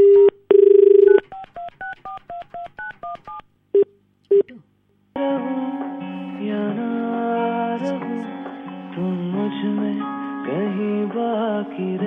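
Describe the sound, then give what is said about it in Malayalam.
Telephone keypad tones as a call is dialed: an opening steady tone, then a quick run of short beeps at shifting pitches and a few more spaced beeps, followed by a longer, sustained wavering tonal sound. “കിട്ടുമെന്നറിയില്ല, വലിയ ഉറപ്പില്ല, എന്നാലും വിളിച്ചു നോക്കാം.”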